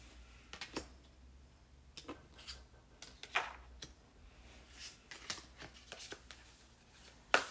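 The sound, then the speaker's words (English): Tarot cards being shuffled and drawn from a deck, heard as many soft, scattered paper flicks and light clicks, with one sharper snap near the end. The sounds are quiet and irregular, with no voices. “So I'm pulling cards from the Star Child Tarot.”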